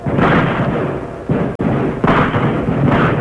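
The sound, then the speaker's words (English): Gunfire rages in a radio drama battle as a loud, continuous barrage of booming, rumbling shots with a few sharper bursts, dense and without voices. “Hey, man, that's a real fight. Yes. Looks like only one side is doing the shooting now, though.”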